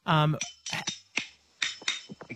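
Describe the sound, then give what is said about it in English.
Very old silver spoons played as a percussion instrument produce a quick, uneven run of bright clicks and clacks after a brief voice at the start. “What are we hearing? Oh, that's just some very old silver spoons that I usually play.”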